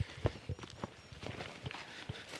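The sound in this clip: Footsteps cross a paddock: a few soft, irregular steps on grass and ground, fairly faint, with no talking.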